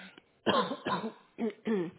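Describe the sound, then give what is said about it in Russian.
Coughing from a person whose cough has come back and grown stronger: four rough, voiced bursts in quick succession, fairly loud and heard alone without talk. “Вы что, все еще кашляете?”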